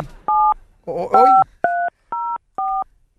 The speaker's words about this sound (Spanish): Hay alguien que está marcando del otro estudio, yo creo